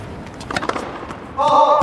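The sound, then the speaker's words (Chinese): Tennis serve, an ace by Rybakina at 180 km/h: a few short, sharp thumps of the ball being struck and landing, followed by a brief louder stretch of sound. “发球，180的发球时速，极致的压线好球。”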